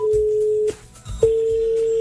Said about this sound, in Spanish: Aquí estamos marcando.